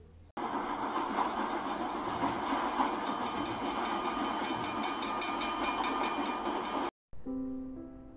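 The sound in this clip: A train at a railway station gives a steady, loud rumbling roar and hiss with a faint rhythmic clatter, continuing evenly before cutting off abruptly near the end.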